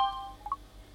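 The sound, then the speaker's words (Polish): A short iPhone notification sound: two quick, bright electronic blips in close succession. They are brief and fairly faint, following a steady tone that fades away. “a drugi dźwięk to już jest dźwięk z iPhone'a.”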